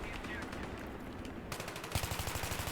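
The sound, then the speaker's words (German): Video game gunfire, with quieter gun noise and game sounds giving way to a loud burst of rapid automatic shots in quick succession during the final second. “Einfach mal so random in die Richtung geschossen.”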